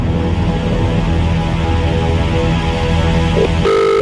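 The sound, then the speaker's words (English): Phone keypad tones as a number is dialled: a brief beep and then a longer, steady two-note tone at the very end, after a long stretch of dense, noisy background. “I'm just gonna hit dial on the number”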